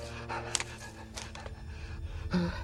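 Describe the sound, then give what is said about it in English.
A man pants hard after running through the woods with a rifle in hand, a few harsh, breathy gasps rising and falling over a low, sustained musical drone. “He stumbles, pushes himself back up, and continues running. After a few more yards, he bends over to catch his breath.”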